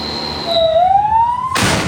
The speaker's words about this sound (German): Aufnahmen aus einem Rettungswagen.